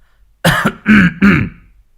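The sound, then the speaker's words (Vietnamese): A man clears his throat three times in quick succession: loud, gruff, rasping bursts with short gaps between them and no speech. “Xong ông hắng giọng lấy le mấy cái”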